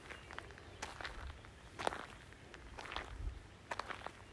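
Footsteps on a walking path: a few faint, irregular steps spaced about a second apart, soft and quiet over low background hiss.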